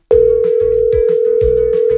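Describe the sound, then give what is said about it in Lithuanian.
Telephone dial tone while a call is being placed: a single steady, loud, mid-pitched hum that starts abruptly and holds unbroken to the end, with soft low thumps beneath it. “Skambinu dabar Gabrieliai.”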